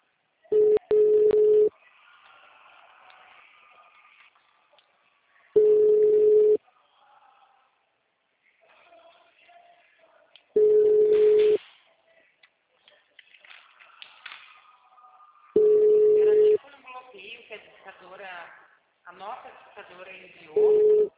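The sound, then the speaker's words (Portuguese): A telephone line gives four steady mid-pitched tones, each about a second long and spaced evenly apart, while a recorded voice speaks in the gaps between them. “Sua chamada está sendo encaminhada para a caixa de mensagens e estará sujeita a cobrança. O número está ocupado.”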